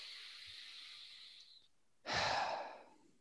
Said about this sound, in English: We take a nice deep breath.